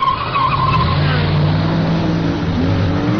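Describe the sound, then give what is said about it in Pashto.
Tires skid and engines whine in a car racing video game played on a computer, a continuous loud rush of screeching and droning motor tones with no break. “زه اکثره وخت په کمپیوټر کې دغه دی موټر زغلولو ګیم کوم”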